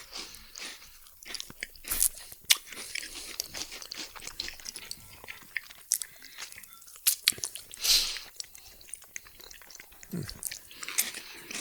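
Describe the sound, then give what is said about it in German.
Crisp biting and chewing of homemade chestnut bread, many short crunchy bites and mouth noises at a low level, with no talking. “Und ich sag mal dann guten Appetit. Bei mir gibt es übrigens das selbstgebackene Kastanienbrot dazu.”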